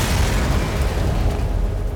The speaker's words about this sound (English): Next, there was the fireplace in his tower apartment. Somehow, it exploded as he was fixing himself a cup of tea.